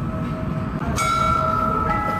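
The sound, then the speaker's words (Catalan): A bell on a tower clock automaton rings out as a metal angel strikes it, leaving a bright, sustained metallic tone over a low background hum, with a second, fainter strike following shortly after. “Quan arriba l'hora es veu que s'obre una porteta a la part superior i un àngel de metall surt per picar la campana.”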